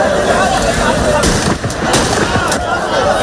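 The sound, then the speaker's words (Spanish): Police firing shots into the air: a few sharp, loud cracks standing out of a thick, noisy background where voices are also heard. “algunos de ellos han provocado algunas situaciones en las que la Policía Nacional ha tenido que disparar al aire así”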